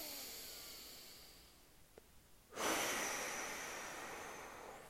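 A deep breath through the nose during a guided meditation: a faint airy breath, then a sudden, stronger hissing breath that slowly tapers off.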